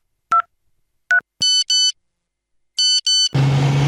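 A mobile phone ringtone: two short electronic beeps, then two pairs of brighter, chiming multi-tone bursts separated by a pause, ending in a sudden rush of broad noise.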